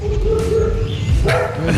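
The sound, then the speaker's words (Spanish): Dogs barking at a journalist during a live report: a few sharp, loud barks and yips over a dense, continuous noisy background, with some voice-like sound mixed in. “Periodista haciendo vivo y los perros ladrándole.”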